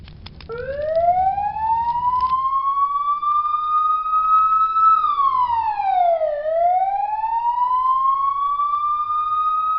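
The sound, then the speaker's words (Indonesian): A loud, wailing fire engine siren as the truck arrives at a house fire. It sweeps upward and holds high, dips sharply in pitch, then climbs back and sustains. “Tak lama kemudian, mobil pemadam kebakaran datang.”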